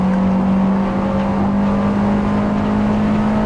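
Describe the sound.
Car engine in a racing video game, a loud continuous droning hum that holds a steady pitch for the few seconds, with no voices over it.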